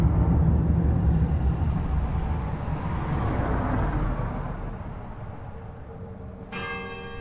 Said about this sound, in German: Ich fahre nach Bad Freienwalde, der Stadt an der Oder.